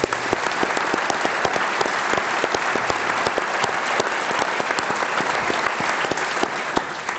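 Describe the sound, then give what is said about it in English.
Sustained audience applause for the sponsors of a political issues forum in Northern California: dense, even clapping that holds at a steady level for the whole stretch, with no pauses or talk. “So I would appreciate it if you give our sponsors a hand as well.”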